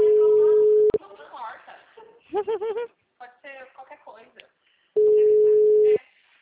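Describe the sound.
Telephone ringback tone during a call: two long, steady, mid-pitched tones, each about a second, separated by a stretch where people talk.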